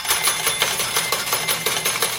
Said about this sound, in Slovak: Toto sú padajúce mince a predstavujú peniaze, o ktoré dnes hráte v našej SMS-kovej hre Oplatí sa naladiť sa.